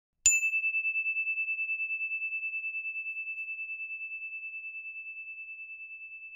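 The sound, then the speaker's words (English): A single bell ding signals the start of a story, a clear high tone struck once that rings on alone with a gentle steady pulsing as it slowly fades. “and here comes the story bell.”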